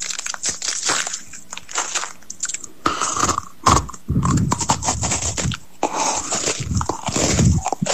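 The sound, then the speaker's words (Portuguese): A man loudly crunches and chews a biscuit in a voice message, with many crisp bites and wet mastication sounds arriving in bursts separated by brief pauses. “O cara manda um áudio pra gente comendo uma bolacha. Ele parece um porco no rolete comendo a bolacha. Aposto que ele come de boca cheia, sabe?”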